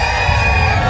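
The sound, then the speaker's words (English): Thousands of rodeo fans at a Fourth of July stampede on Maui cheering and whooping in a loud, dense, steady roar of a big crowd. “That's the sound of thousands of fans at the 4th of July Makawao Stampede on Maui.”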